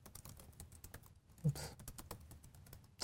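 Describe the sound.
Typing on a computer keyboard: many quick, irregular key clicks, fairly soft and alone, with a slightly louder keystroke partway through.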